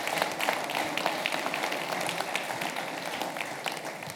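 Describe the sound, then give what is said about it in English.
An audience applauds to welcome a new head football coach, a dense, even wash of many hands clapping that stays loud and sustained without a break. “let's welcome our next head football coach, Coach Alex Golis. Giving Coach Golis a warm ovation.”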